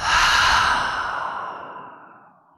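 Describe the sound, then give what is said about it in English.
A single long, airy exhale through the mouth during a deep breathing exercise, loud at first and then tapering gradually into silence, heard alone. “we take another full breath in through the nose and out through the mouth.”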